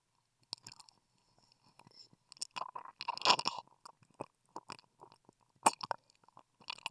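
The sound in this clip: Close-up wet licking along the hard part of an ear: soft, moist smacks and clicks in irregular bursts, separated by quiet gaps, with no voice.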